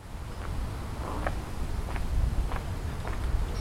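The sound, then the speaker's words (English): Footsteps walking along Devonshire Avenue in the North End of Halifax, a steady series of soft, evenly spaced steps over constant low outdoor noise. “I'm standing on Devonshire Avenue in the North End of Halifax. As I walk along this short street, I'm heading in a strange direction.”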